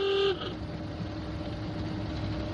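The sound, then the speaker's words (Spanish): A car horn sounds in one short, loud blast at the very start as a convertible Rolls-Royce drives along a desert track past people on camels, followed by steady rumbling vehicle noise. “el conductor hace sonar el claxon para que unos árabes en camello se aparten del camino”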